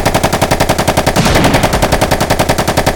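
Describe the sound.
Rapid gunfire in a video game during a sniper engagement: many evenly spaced shots in a fast, steady automatic rhythm, loud and continuous throughout.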